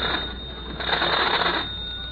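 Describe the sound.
A telephone rings as a bright, rattling bell that sounds continuously for about two seconds and swells slightly in the middle.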